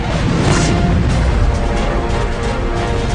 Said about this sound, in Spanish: El misil Archer duda por un momento y finalmente explota justo contra el misil tierra-aire.